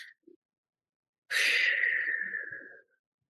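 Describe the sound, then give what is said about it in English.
A single deep breath, a loud, airy rush of about a second and a half that fades at the end, heard alone after a couple of faint short sounds. “you pause and you take a deep breath.”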